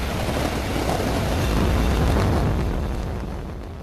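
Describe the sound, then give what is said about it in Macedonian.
A SpaceX Falcon Heavy rocket lifting off from Kennedy Space Center in Florida gives a loud, continuous, crackling roar of rocket engines that swells slightly, then gradually fades over a few seconds. “Во Вселенскиот центар Кенеди во Флорида, ракетата SpaceX Falcon Heavy полета во Вселената. Heavy has cleared the tower and is on its way to space.”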